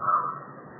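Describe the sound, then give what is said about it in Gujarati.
A crow gives a single harsh, drawn-out caw that fades gradually, heard alone at moderate loudness. “આ કાગડાનો અવાજ આવે છે, સારું કે ખરાબ?”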